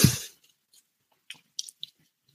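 Chewing a second piece during a tasting: one loud crunching bite at the start, then a few soft, moist clicks and squishes spread over the rest, with no talking.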